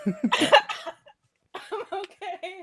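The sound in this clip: Coughing after something went down the wrong pipe: a short burst of harsh coughs, then a brief pause, then a voice speaks.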